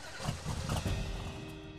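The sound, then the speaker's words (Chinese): A car engine rumbles as the car moves off from a highway traffic jam. The sound is short and steady, with a low engine drone throughout. “哎，前面的车子好像开始动了”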